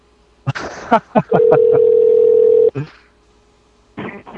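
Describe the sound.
A steady telephone dial tone after a dropped call, one unbroken pitched hum held for over a second. Brief talk comes just before it and more talk resumes afterward.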